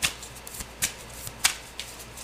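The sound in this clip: Tarot cards being shuffled to draw one more card in a love reading, heard as a few soft, crisp papery flicks and snaps spaced irregularly over faint, steady hiss, with no talking.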